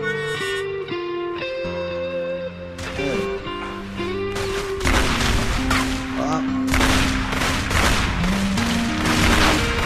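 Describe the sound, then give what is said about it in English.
A big gun firing in a video game: booming shots and bursts of fire cut through tonal game music, growing denser and louder in the second half. “He's going to shoot that big gun there. Oh, that hurt.”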